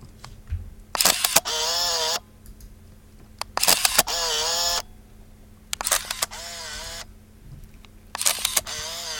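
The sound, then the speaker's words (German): Mechanical whirring of a 1988 Olympus O-Product, an aluminium-bodied autofocus 35mm film camera, in four separate bursts. Each starts with sharp clicks and turns into a high, buzzing motor whine, with quiet pauses between. “um eine Olympus O-Product aus dem Jahre 1988. Das ist ein auf 20.000 Exemplare limitiertes Design-Sondermodell in einem Aluminiumgehäuse. Autofokus-Kleinbildkamera, also 35mm Film.”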